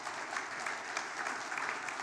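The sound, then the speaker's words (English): Audience clapping in the open seating of a church: dense, even applause at moderate level, sustained without a break throughout. “all the people who are clapping, as you know, were the ones who are sitting in our open seating”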